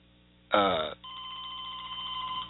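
A telephone bell rings in one brief, loud burst. A steady, fainter electronic tone follows and holds until the end.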